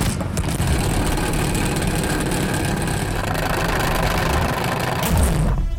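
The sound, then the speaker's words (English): A salad spinner spins with a loud, continuous rattling whir that holds steady for several seconds and then stops abruptly. “let's spin the Salad Spinner. Does one of you want to have a turn to spin the spinner?”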